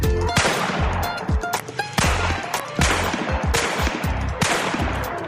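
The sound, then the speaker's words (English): Five rifle gunshots fired at targets ring out as sharp, loud cracks at irregular intervals, each with a brief ringing decay. “Okay, check your chamber real quick. We had 5 shots and you hit 5 times.”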